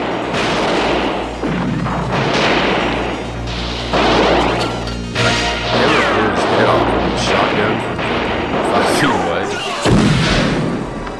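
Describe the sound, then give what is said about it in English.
Heavy gunfire from assault rifles and shotguns in a dense, unbroken barrage of overlapping cracks, booms and crashes that stays loud throughout. “They're shooting with assault rifles, shotguns.”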